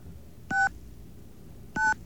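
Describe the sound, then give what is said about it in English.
Touch-tone telephone keys dial a number. Two short, clear beeps are spaced more than a second apart over a low, steady background hiss. “Get a happy dial tone. Okay. There we go. Okay, 1-888 VINE 4. NY.”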